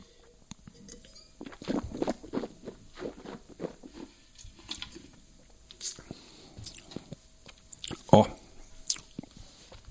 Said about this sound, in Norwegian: Dette her med en trøffelpizza, det er jo nå skal jeg smake, da.